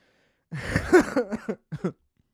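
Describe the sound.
A cough brings up phlegm: one rough, throaty burst followed by a few shorter hacks and throat-clearing sounds, moderately loud and heard alone.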